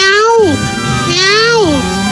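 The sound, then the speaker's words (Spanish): Two long, loud meows like those of a cat, each holding a steady pitch before sliding downward at the end, with a short gap between them. “Ya ni la haces, condenado gato.”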